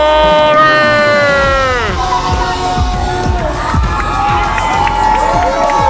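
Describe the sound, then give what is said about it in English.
A crowd shouting hooray in unison with parade-like energy. A few loud cheers each slide down in pitch, with children's voices mixed among the shouts. “You want to have 3 more cheers? You want to have 3 more cheers? Fine! Let's do this, bro! 3 more! Hooray! Hooray!”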